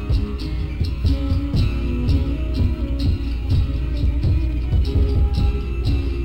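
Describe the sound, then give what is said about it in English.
A music file from the Cicada 3301 puzzle plays alone, with a steady, bass-heavy rhythmic beat and repeating tonal figures at an even, moderate loudness. “Successfully completing a code-breaking challenge led them to a Dropbox link. In it was a music file. The title? The Instar Emergence.”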